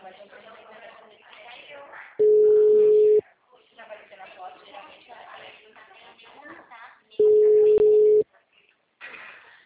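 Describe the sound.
Telephone busy signal heard twice as a steady, low, flat tone, each burst lasting about a second, with several seconds between them and people talking around both.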